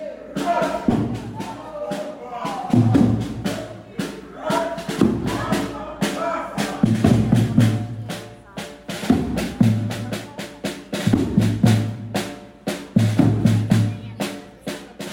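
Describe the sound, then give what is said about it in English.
Protesters outside the Russian embassy in the old town of Tallinn, Estonia, chant in repeated rhythmic phrases. Sharp thuds and claps punctuate the chants, and the crowd noise swells and ebbs throughout. “That was the sound of people protesting outside the Russian embassy in the beautiful old town of the Estonian capital, Tallinn.”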